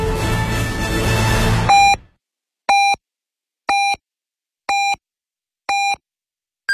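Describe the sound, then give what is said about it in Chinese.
Radio hourly time signal marking four o'clock Beijing time: five evenly spaced short mid-pitched beeps a second apart, then a longer, higher final tone, loud and clean after music cuts off. “现在是北京时间16点整”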